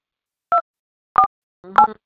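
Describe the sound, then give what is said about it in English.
Touch-tone keypad beeps from a phone as a number is dialed to add a call, three short separate dual-pitch tones spaced roughly half a second to a second apart, clear against silence. “Okay, you can dial her number. Okay. Let me add a call.”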